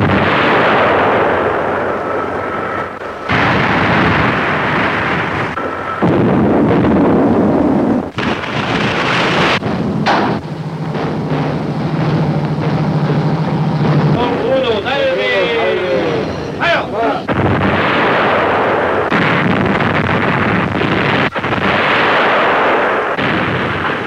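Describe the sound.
A German navy cruiser fires gun salvos, heard as a few heavy booming blasts with rolling rumble. Men shout orders between the shots.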